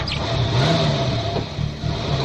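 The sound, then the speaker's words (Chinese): A car engine runs and revs as the vehicle drives off, a steady mid-pitched rumble with a brief rise in pitch near the start. “安在田发动了车子，车子向寺院开去。”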